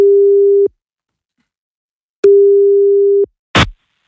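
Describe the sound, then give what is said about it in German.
Ringback tone while placing a telephone call: two steady, mid-pitched electronic tones separated by silence, the second about a second long, followed by a short noisy burst. “So wie ich jetzt versuche, Marvin anzurufen, um ihm diese Tickets zu schenken. Aber eben nur dann, wenn er rangeht.”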